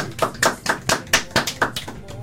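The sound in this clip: Sparse applause in a radio studio: a few people clap in sharp, distinct claps at a fairly even rhythm, with a voice underneath.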